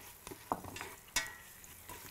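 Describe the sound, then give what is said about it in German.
Spices roasting with onions in a pan give a faint, steady sizzle, punctuated by two sharper clacks from stirring. “Wir rösten die Gewürze jetzt noch mit den Zwiebeln hier an.”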